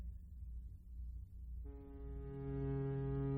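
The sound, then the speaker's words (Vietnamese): A ship's horn sounds as the ship leaves port: a deep, steady, tonal blast enters over a low rumble partway through and holds unbroken to the end. “Tiếng còi tàu lại rít lên lần nữa, rồi chiếc tàu từ từ rời bến”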